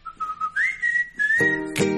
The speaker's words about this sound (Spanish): Claro, el chiflido es feliz, ¿no? El chiflido es feliz.